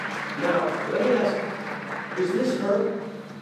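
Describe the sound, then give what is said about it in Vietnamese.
Audience applause thanking a few people called up to collect souvenirs: a steady wash of clapping that continues under a voice talking throughout. “chúng ta hãy vỗ tay để cảm ơn những bạn này”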